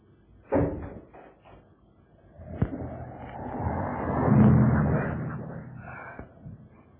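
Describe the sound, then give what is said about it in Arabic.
A door is opened and then slammed, giving two sharp, separate thuds. A swelling, rushing roar builds up afterwards and slowly fades out. “من فضلك افتح الباب ده وتفضلي.”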